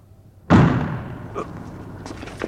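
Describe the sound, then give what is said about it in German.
A staged gunshot in a German radio drama: one loud, sharp bang with a heavy low thud that decays over about half a second, followed by a few faint knocks. “Sind die verrückt? Das ist ja nicht zu glauben. Die schießen ja im Ernst.”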